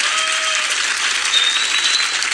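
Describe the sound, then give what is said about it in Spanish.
Audience applause at a live comedy performance, dense and steady clapping from a crowd that holds at an even level from start to finish. “¿Sabía usted que ya se van a aplaudir? Un aplauso de la amiga,”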